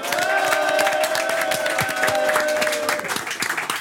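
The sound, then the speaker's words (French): Applause and cheering from a studio audience greet a guest arriving on the opening day of the Cannes Film Festival, dense and steady throughout the nearly four seconds, with a sustained tonal sound running beneath the clapping. “Applaudissements pour Marc Esposito.”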